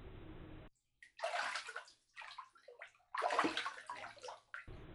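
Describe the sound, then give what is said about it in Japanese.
Hot spring source water pours into the bathtubs of an onsen, splashing and rushing in bursts separated by short pauses. “どの湯船も源泉かけ流しの本格的な温泉となっていて、こまめな掃除を欠かさないのだろう。”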